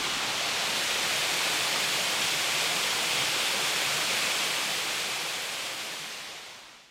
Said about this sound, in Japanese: 滝の下の方へやってきました。 滝から100メートルぐらい降りてきたんですが、下から見上げられるという場所に来ました。